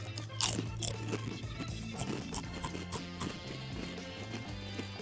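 Someone bites into a lime-flavoured snack and crunches it: a sharp crisp bite, then many brittle crunching chews in an uneven rhythm, fairly faint.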